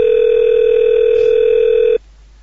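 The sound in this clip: Telephone dial tone heard during a call: one steady, unbroken tone that holds loud and even for about two seconds, then cuts off abruptly, leaving near silence. No voices.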